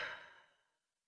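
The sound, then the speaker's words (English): A slow breath out during a guided breathing exercise: a soft, airy exhale that starts fullest and steadily fades away within about a second, faint and alone. “Hold it and slowly breathe out.”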